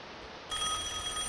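A telephone rings for an incoming call to a radio show. After a moment of quiet, a steady, bright electronic ring starts suddenly and holds at an even level.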